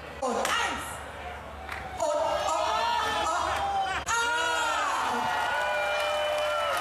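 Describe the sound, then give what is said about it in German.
A few sharp hammer knocks tap a barrel of Kölsch beer at the traditional keg tapping that opens Pützchens Markt. A cheering, whooping crowd and talking voices run throughout. “ein gezielter Schlag und das Kölsch sprudelte schon so aus dem Fass raus.”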